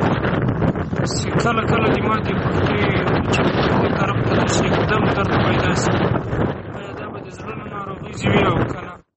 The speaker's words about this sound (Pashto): متاسفانه داسې ځای په خپل پیغام ثبت کړی و چې ډېر شور و، شاید هم باد و.